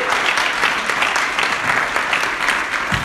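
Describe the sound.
Audience applause welcoming a guest onstage: dense, steady clapping that stays loud and even from start to finish, with no talk over it.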